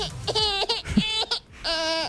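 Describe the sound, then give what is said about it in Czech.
A small baby vocalizes in three drawn-out, high, wavering cries separated by short pauses. “To je malé dítě.”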